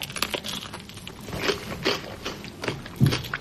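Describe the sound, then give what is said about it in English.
Crisp crunching as someone bites into and chews a homemade dish, several irregular crunches of varying loudness with no talk over them. “Let's try it. Let's take a bite.”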